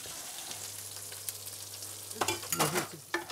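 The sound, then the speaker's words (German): Food fries again in a pan on an old stove, giving off a steady hissing sizzle. Scraping, stirring clatter breaks through over the last second or so. “Braten wir nochmal an.”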